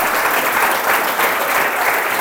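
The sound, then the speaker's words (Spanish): A church audience applauding: dense, steady clapping from many hands, loud and unbroken across the whole stretch, with no clear voices above it. “Denle el aplauso si se lo va a dar a Cristo, por favor.”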